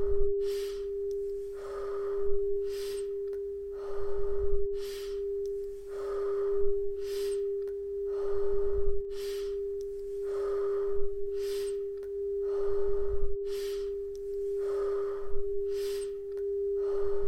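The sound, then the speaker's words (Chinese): Slow, even breathing during a guided breathing exercise, with many soft inhales and exhales alternating at a steady pace over a constant sustained tone. “维持速度，吸气，吐气，吸气，吐气。”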